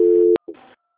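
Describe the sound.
Telephone line tone while a call is being transferred: a steady, loud electronic tone cuts off with a click, then after a brief silence a short, buzzier tone sounds and stops.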